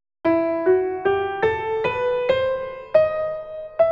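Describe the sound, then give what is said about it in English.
An ascending harmonic minor scale played as eight sustained, clearly separated notes, each one stepping higher at an even pace. The tone is clean and harmonic-rich, heard alone with no talking. “There is a harmonic minor, which sounds like this.”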